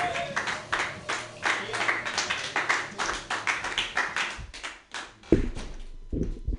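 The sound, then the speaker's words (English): An audience applauds a comedian at an open-mic comedy show, a steady wash of many clapping hands that fades out around five seconds, after which a voice begins. “Put your hands together for Kevin August.”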